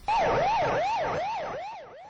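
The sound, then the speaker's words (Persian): Fire engine sirens in Iran during a spate of fires, a loud wail that rises and falls in pitch over and over in quick repeated sweeps, heard alone and fading slightly toward the end. “آژیر آتش نشانی ها این روزها ایران را فرا گرفته است.”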